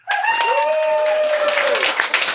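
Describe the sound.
Applause and clapping greet a host's name, a steady, loud wash of crowd noise lasting about two and a half seconds with a sustained tonal cheer riding over it.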